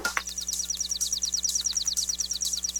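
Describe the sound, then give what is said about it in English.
Chipping sparrow song: a rapid, dry, mechanical trill of many identical high chips at an even rate, steady and moderately loud from start to finish. “Songs can also be dry and mechanical, like the chipping sparrows,”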